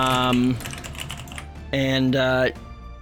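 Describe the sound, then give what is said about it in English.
Loud computer keyboard typing, a fast patter of clicks running beneath two bursts of a voice with a steady background hum. “your typing is so loud”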